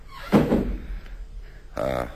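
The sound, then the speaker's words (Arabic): A door is pulled shut behind a man entering a room, landing as a dull, low thud followed by a quiet pause before a voice starts speaking near the end. “برنارد يغلق الباب وراءه.”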